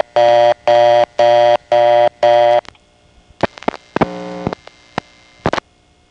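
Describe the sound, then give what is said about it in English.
A telephone reorder tone from a step-by-step exchange: five evenly spaced, loud, buzzy tone bursts, followed by a jumble of shorter tones and clicks. “Now he's on the district's reorder, and from this one he has to hang up to trigger coin return and go back to idle.”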